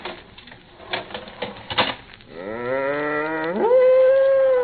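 A cow moos in a barn at morning milking time. A few scattered clattering knocks come first, then one long, low, drawn-out call that swells and rises in pitch near its end.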